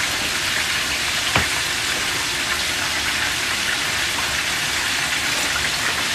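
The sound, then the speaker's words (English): Chicken frying a second time in hot oil to crisp the skin: a continuous dense crackling sizzle with one sharper pop early on, heard alone without voices. “And then afterwards, when you cook it a second time, it's gonna cook it, but rapid cook it. So this way you get that nice crispy skin.”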